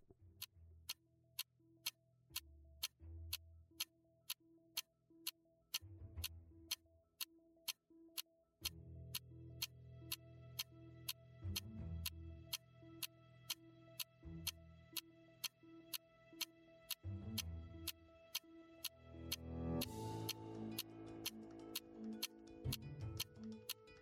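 A quiz clock ticks in a steady, even rhythm of many sharp, quiet ticks, running without pause over a low, droning tonal background that swells near the end.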